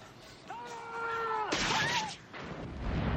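Gunfire from a film scene being played, a short, loud burst of crackling shots about half a second long that follows a quieter stretch with a high tonal sound, then gives way to continued noisy action.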